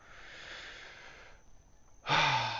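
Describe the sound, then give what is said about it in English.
Slow, deep breathing done as a deliberate breathing exercise, with no talk: one long, soft, airy breath is followed by a pause and then a louder, fuller breath. “So before I get into this episode, I just want to do a minute of breathing.”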